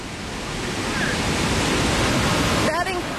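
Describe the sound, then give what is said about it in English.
A thunderous, steady roar of rushing water pours from Victoria Falls on the Zambia–Zimbabwe border, the largest waterfall in the world by volume. The dense, even noise stays loud throughout. “Sound you can hear, that thunderous sound, is the sound of the Victoria Falls here on the border of Zambia and Zimbabwe in southern Africa.”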